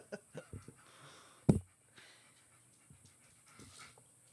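Heavy, overweight dog panting hard while lying in the sun: a few quick rhythmic breaths at the start, one sharper, louder huff, then softer, quieter breathing to the end.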